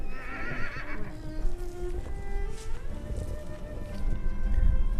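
A group of five Przewalski's horse bachelor stallions gallops down a hill, a high wavering whinny rising near the start over a constant rough rumble of hooves and wind that swells toward the end.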